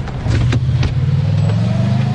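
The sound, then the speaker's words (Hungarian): A car driving off after a passenger's bag was put on the back seat: a steady, low, mid-pitched engine hum that holds throughout, loud and alone, with no voices. “Ezután a képviselő betette a táskáját a hátsó ülésre, becsukta az ajtót, amiről a sofőr a felvételek alapján azt gondolhatta, hogy a képviselő is beszállt. és elindult”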